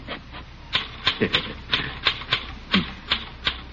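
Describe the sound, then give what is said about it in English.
Typewriter keys striking as a letter is typed: many crisp, irregularly spaced clacks with light mechanical rattle between them, at a moderate level with no voices. “Here, let me type that letter for you.”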